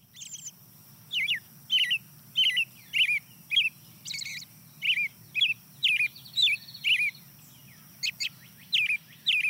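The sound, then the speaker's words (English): An American robin sings a long run of short, clear whistled phrases, many in a row with brief gaps between them. A low, steady rumble lies beneath, and no one talks. “Starts off with the American robin, the early riser.”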